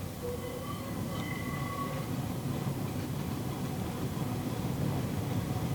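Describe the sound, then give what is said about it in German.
A tram rattling and squealing through a city in November: a steady rumbling clatter of wheels and carriage, fairly quiet and continuous, with thin squealing tones early on and no voices. “Die Straßenbahn mit den großen, schiefen Gesichtern an den Scheiben stößt und stolpert noch immer durch den November. So singt sie ihre quietschende Melodie in die Stadt hinein.”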